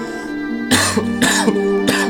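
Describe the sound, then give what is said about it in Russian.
A person coughs three times, each a harsh, raspy burst spaced about half a second apart, over steady background music. “начал кашлять.”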